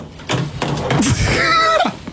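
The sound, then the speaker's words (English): A telephone handset slammed down in a failed hang-up: a few hard knocking thuds and clatters, mixed with voice-like tones. “I tried to slam the phone down and it failed.”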